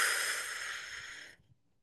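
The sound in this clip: A slow, deep exhale from the belly during a breathing exercise makes a soft, airy hiss that gradually fades and stops after about a second and a half, followed by near silence.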